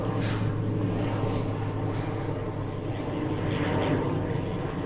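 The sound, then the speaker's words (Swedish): Propeller airplane flying over: a continuous broad droning roar with a steady low engine hum runs loud and unbroken for the whole five seconds. “Jävla propellerflygplan. Old school.”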